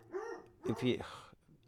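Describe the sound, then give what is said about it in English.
Dogs barking: a few short, sharp barks and yelps in quick bursts, moderately loud, over a faint background hum. “I'll leave it there because the dogs are just going to bark.”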